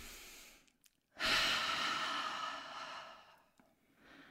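A deep breath in and out during a guided moment of calm: a long, airy rush of breath that slowly fades, after a few faint clicks, with another soft breath starting at the end.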